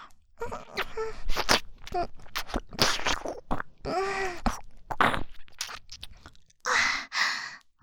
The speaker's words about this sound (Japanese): お兄ちゃんのお耳美味しい。ペロペロしたい。もっとペロペロしてい